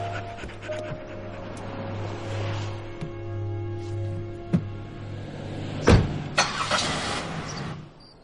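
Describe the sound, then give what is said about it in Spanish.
A car drives along a tree-lined road, its engine a steady low drone throughout, with a few sharp knocks and rattles breaking in toward the end. “El coche recorre una carretera entre arbolado.”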